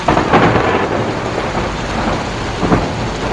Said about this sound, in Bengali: কি জোরে বিদ্যুৎ চমকালো!